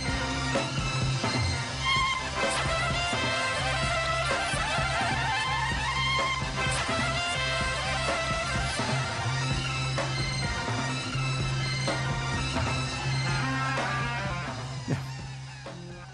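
Dense psychedelic studio rock recording built over a steady low droning bass note, with layered looping tones and swirling effects stacked above it. The music stays loud and continuous, then thins slightly near the end.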